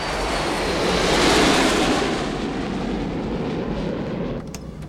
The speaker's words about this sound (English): An airport. A jet takes off.